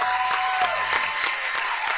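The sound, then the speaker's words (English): Applause from Clay County basketball fans as a player fouls out, a dense, steady wash of clapping and crowd noise that holds at an even level throughout. “Keaton getting a good round of applause from the Clay County fans as he's fouled out.”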